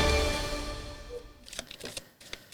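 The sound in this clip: A deck of cards being shuffled: a fading tonal ring gives way to a few quick, papery ticks and flicks.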